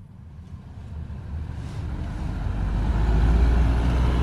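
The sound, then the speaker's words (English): A car drives through the city streets of Amman with a steady low engine and road rumble and a broad hiss of traffic noise, growing gradually louder toward the end, with no voices. “We're driving through Amman on the way to see a little girl called Yusra.”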